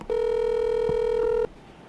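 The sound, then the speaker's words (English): A single steady electronic telephone tone sounds as a call is dialed. It holds at even loudness for over a second, then cuts off abruptly into quiet, with no voices. “You ready to call Todd?”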